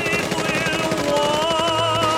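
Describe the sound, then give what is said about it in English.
Tommy gun fire from a gangster film scene, a rapid, steady rattle of shots that runs throughout over a sustained tonal backdrop. “He's walking calmly down the road with his Tommy gun, carrying on this battle.”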